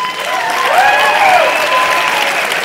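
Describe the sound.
Audience applause at a live panel discussion: dense, steady clapping that fills the whole stretch at an even, loud level without a break.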